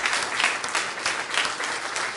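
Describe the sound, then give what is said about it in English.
A church audience claps in praise during a service, a dense, even burst of applause that runs unbroken for a couple of seconds. “Let's give him a hand clap of praise.”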